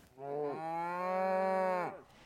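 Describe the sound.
A single long moo from a cow in a free-ranging herd of about thirty cattle, a sustained, fairly faint lowing call that dips briefly in pitch near its start, holds steady, then drops away at the end.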